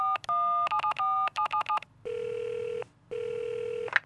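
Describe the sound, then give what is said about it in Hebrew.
Keypad tones from a mobile phone being dialed: a quick run of many short, bright beeps in an uneven rhythm. Two long, steady ringing tones follow with a gap between them. “שומרת שלפה את הטלפון הנייד שלה וחיגה לאלון”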